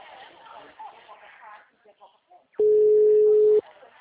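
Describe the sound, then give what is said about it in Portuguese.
A telephone ringback tone heard while calling a client: one steady, mid-pitched tone lasting about a second. It comes after a stretch of someone speaking. “Vai, filha, atende. Tô ligando pro cliente.”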